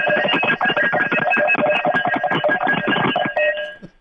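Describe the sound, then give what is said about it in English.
Cowbells from a university's cowbell tradition being rung: rapid, continuous metallic clanging with bright ringing overtones, loud and steady throughout before fading briefly at the end. “So I'm signing some cowbells, and they sound like this.”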